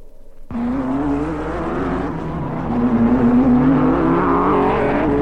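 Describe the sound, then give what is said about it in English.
Race car engines at a speedway roar in abruptly and then hold as a loud, continuous drone, thickening and rising slightly in pitch partway through, with no voices. “Good afternoon, racing fans. We're broadcasting to you directly from the Daytona 500 Speedway.”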